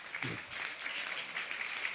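Soft applause fills a church, with the audience producing an even, dense patter of clapping that carries on steadily without a break.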